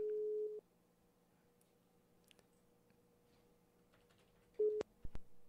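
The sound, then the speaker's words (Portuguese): A telephone busy signal on a call: two short, steady low beeps separated by a long quiet gap, with faint clicks in between. “Vamos ligar para a palhaça amendoim.”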